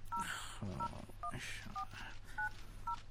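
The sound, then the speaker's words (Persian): A phone number being dialed: six short, dual-pitched keypad beeps at an uneven pace, faint against a low background hum. “بهتر است یک تماس با وکیل حمید بگیرم.”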